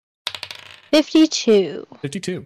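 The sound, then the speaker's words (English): Percentile dice, a d100, rolled across a table during a tabletop role-playing game: a quick run of light, rapid clicks and rattles, followed by several louder knocks and clatters as the dice tumble and settle. “Just going to roll a d20 on here, or d100 rather.”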